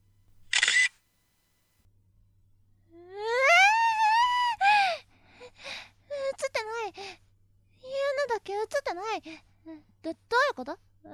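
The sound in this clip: A single short click of a camera taking a photo comes right at the start. A woman's voice then follows with sighs, gasps and breathy cries.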